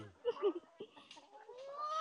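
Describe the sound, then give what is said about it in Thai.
Chickens clucking after being fed: a few short, throaty clucks and squawks, loudest near the start, then a softer, thinner run of calls. “โอเคนะครับเมื่อเราให้อาหารไก่เสร็จแล้วนะครับ”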